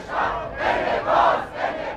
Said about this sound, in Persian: تصویر از بالا تابلوی وزارت آموزش و پرورش رو نشون میده و جمعیتی که جلوی درش دارن شعار میدن.